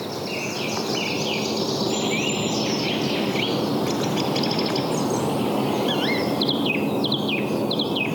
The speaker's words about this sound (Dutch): Een galende zang van de zangluister.